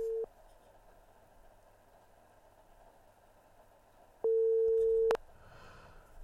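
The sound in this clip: A telephone busy tone follows a failed call: a short steady beep at the start, a long stretch of faint hiss, then a second, louder mid-pitched tone lasting almost a second.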